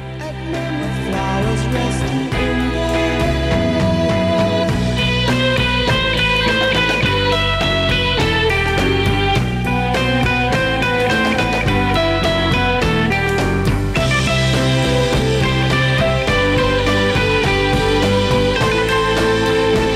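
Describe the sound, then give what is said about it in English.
Instrumental section from the middle of a 1960s song, with full, continuous band music and layered melodic instruments over a steady rhythm, loud and unbroken for the whole stretch without singing. “I love the instrumental section right in the middle of this. And it sounds like this.”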